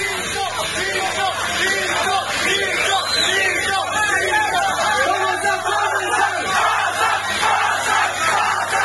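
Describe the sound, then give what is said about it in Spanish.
Supporters of a boxer cheer and shout at a boxing weigh-in in Santa Cruz. Their voices form a steady din of overlapping calls and yells. “Tiene su hinchada, escucha.”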